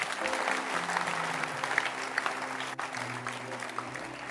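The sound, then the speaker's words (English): A church audience claps together after a sermon prompt, steady dense applause running throughout with a low murmur of the crowd beneath it. “Clap your hands and you may be seated.”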